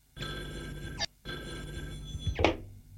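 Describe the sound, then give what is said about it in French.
A telephone bell rings as a call comes in, two long ringing bursts separated by a brief pause, bright and metallic, with no voices. “Nicolas reçoit un appel téléphonique”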